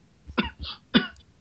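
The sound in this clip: A few short, dry coughs set off by a tickle in the throat, loud and separate bursts with brief quiet gaps between them.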